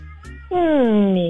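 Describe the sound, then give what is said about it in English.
A person imitating a cat meowing while stretching: one loud, drawn-out meow that slides steadily downward in pitch. “That sounded like a cat stretching while meowing.”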